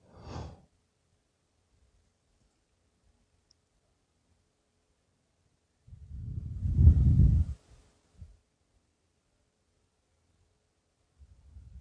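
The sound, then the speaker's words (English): A deep breath drawn in: one long, fairly loud airy rush of breath, with a short faint breath earlier and near silence around it, no talking. “Deeper breath in.”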